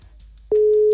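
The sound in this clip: A telephone ringing tone on a call being placed, entering abruptly midway as a loud, steady single-pitch tone that holds unbroken to the end, after a faint low background murmur.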